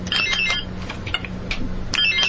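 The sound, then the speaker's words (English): Quiz game buzzers being tested produce several short, bright electronic beeps and buzzes in quick succession, fairly loud, over a low steady hum. “Let's test our buzzers.”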